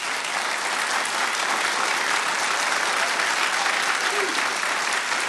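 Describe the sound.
A studio audience at the Newseum's Knight Studio in Washington, D.C. breaks into applause: dense, continuous clapping at a steady, fairly loud level with no pause.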